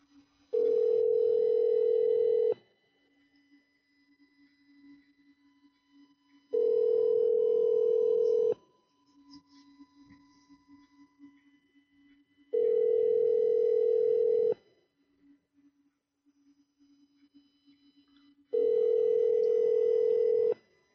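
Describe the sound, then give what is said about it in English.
A telephone call ringing out as a ringback tone: four long, steady tone bursts with even silent gaps between them and no voices. “call him back. And I don't know if he'll answer, but I'll try twice.”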